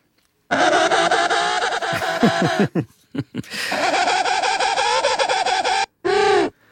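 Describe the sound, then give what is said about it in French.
A penguin calls with a dissonant double tone: loud, harsh, braying phrases broken by quick rapid pulses, a long buzzy stretch, then a brief final burst. “Les manchots jouent de la guitare, en quelque sorte, en tout cas, font la même dissonance que vous venez de faire avec votre guitare. On écoute le manchot.”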